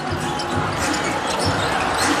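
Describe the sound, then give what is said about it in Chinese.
A basketball is dribbled past half court during a game, its quick thudding bounces nearly buried under a steady, dense crowd roar. “运球过半场”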